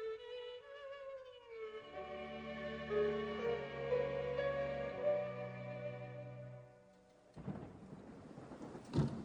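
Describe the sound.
Thunderstorm with rain, heard as low rumbling beneath sustained droning tones, then giving way near the end to a loud burst of broad, hissing noise like heavy rain.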